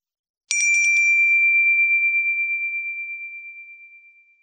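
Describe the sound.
A small handheld ritual bell is struck once, giving a bright metallic attack whose upper shimmer dies quickly while a single clear high tone rings on and fades slowly for about four seconds, alone in silence.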